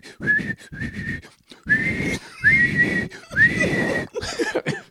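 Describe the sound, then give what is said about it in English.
A person imitates blowing a whistle with the voice, making a series of shrill, breathy whistled blasts at a steady high pitch, several in a row with brief gaps between them. “And then she swims over to get the whistle and she's all”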